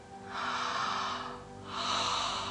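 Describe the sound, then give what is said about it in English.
A person takes a long, airy breath in through the mouth, pauses briefly, then lets out a second long, breathy exhale over a faint steady hum. “All together. Inhaling through the mouth, exhaling, one, two,”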